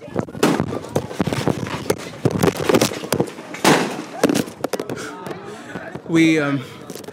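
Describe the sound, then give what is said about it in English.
Gunfire as gunmen attack people queuing to vote at a polling station: many sharp, rapid bangs and cracks, followed by raised voices. “Amaka eventually got to the front of the queue and was just about to cast her vote when gunmen suddenly arrived and scattered everything.”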